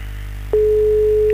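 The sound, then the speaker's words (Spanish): A steady electronic telephone tone sounds on a live phone call. It holds one unbroken pitch above a low hum after a quiet start, with no voices. “Estamos llamando a Luis Cáceres en el día de su cumple.”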